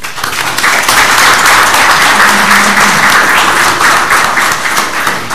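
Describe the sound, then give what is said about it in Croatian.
Warm applause from councillors and other attendees at a county assembly session: dense, loud, steady clapping from many hands that carries on evenly throughout, with no talk over it. “kao i ostali prisutni, jednim toplim aplauzom.”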